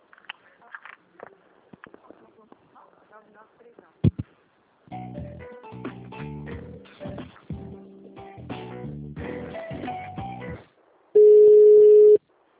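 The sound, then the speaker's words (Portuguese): A telephone tone sounds after a dropped call: a single loud, steady, mid-pitched beep lasting about a second near the end, following a stretch of talk and other line sounds. “Eu acho que a ligação caiu.”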